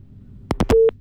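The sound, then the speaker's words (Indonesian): A telephone busy tone sounds after a call disconnects: three quick clattering clicks, then a short, steady mid-pitched beep. “Oke, baik, terputus nampaknya.”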